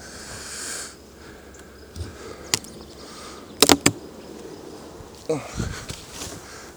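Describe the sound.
Bees buzz at a beehive being smoked with a bee smoker, a low, steady hum broken by a few sharp puffs and knocks, while a person talks.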